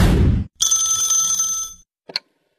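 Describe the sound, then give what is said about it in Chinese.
A telephone ringing with an incoming call from an unknown number: a brief noisy burst, then one sustained electronic ringtone burst, followed by a short faint chirp. “又一个陌生来电”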